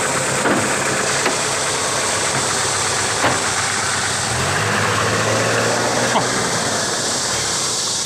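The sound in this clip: A car engine runs as the car drives off. A steady, low, rumbling drone with a knocking vibration continues throughout, and its tone shifts partway through.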